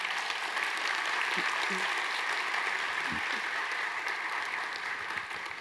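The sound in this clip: A church audience applauds to welcome a guest speaker on Missions Sunday. The dense, even patter of many hands holds steady and fades slightly at the end.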